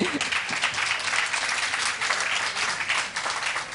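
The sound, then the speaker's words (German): Audience applause at a book fair: steady, loud, dense clapping from many hands that continues without a break. “Es ist zwar ein sehr ernstes Thema, aber Sie dürfen durchaus noch mal fröhlicher applaudieren.”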